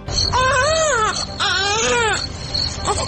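A baby cries in a radio drama scene, the small son of a family wailing in two long, loud, high-pitched bursts with arching pitch, then a weaker third cry trailing off at the end.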